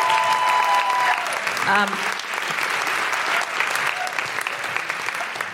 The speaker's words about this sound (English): Please put your hands together and give a big guilty feminist welcome to Sonia Adesara.